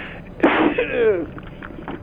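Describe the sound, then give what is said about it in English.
A single sneeze bursts out sharply, followed by a voiced, falling exhalation, fairly loud and heard alone. “excuse me, I just sneezed.”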